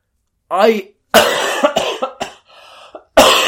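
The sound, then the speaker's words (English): A few harsh, loud coughs from a person who is ill, abrupt bursts separated by short gaps, with a brief voiced sound before the first one. “keep that cough in, because I am ill”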